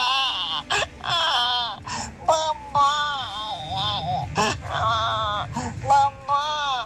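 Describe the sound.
An adult voice imitates a crying baby as a hidden talent, producing many short, wavering wails with bending, falling pitch, broken by brief gaps and loud throughout.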